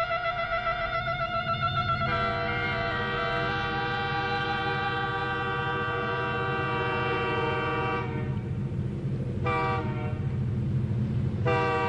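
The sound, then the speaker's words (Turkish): A train passes with a long, loud sustained horn blast over a constant low rumble of rolling wheels, followed by a couple of shorter horn blasts near the end. “Seni buraya getiren trenlerden biri daha geçti.”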